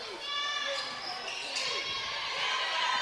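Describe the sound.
Basketball dribbled on the court during a women's college game, repeated rhythmic bounces heard under a commentator's voice calling the play.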